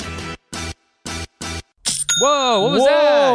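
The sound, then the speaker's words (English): An online store sale notification chime: after several short bursts of people talking, a loud, bright bell-like ding rings out. Sustained ringing tones follow with warbling, sweeping overtones. “Is that sound? It's nice. It's the sound of another sale on Shopify”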